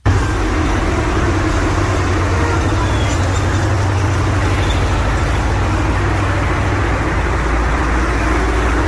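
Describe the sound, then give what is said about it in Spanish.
Traffic in a town square in Chile: a loud, steady wash of car and bus engine noise over a constant low rumble, with no break throughout. “La plaza en Chile suena más o menos así como vamos a escuchar.”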